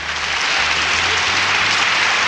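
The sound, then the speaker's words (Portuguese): Dense, continuous applause on a live Brazilian music show, loud and steady throughout. “Mais palmas, aplausos.”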